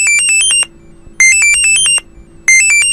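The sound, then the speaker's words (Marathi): A mobile phone ringtone of rapid, high-pitched electronic beeps comes in loud repeated bursts separated by short pauses, with no talk. “अरे थांब थांब थांब थांब, सुखदाचा phone आहे.”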